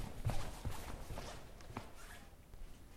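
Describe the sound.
Footsteps on a staircase, a few soft, dull thuds that are faint and uneven in rhythm, with little else around them.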